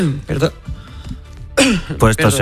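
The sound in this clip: Coughs and throat clearing break up a person's talk, with a few short, harsh bursts in a pause between stretches of speech.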